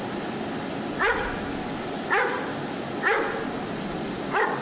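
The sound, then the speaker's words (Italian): Dogs barking: four short, sharp barks spaced about a second apart, each a bright burst rising out of a steady background hiss, with no talk. “Sempre sti cani.”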